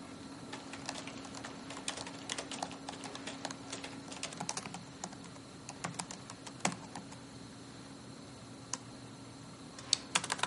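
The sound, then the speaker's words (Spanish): Typing on a computer keyboard, with text deleted and rewritten: soft, irregular clicking in bursts and short pauses, fairly faint throughout, with a few sharper taps toward the end. “Borra lo que ha escrito y vuelve a escribir.”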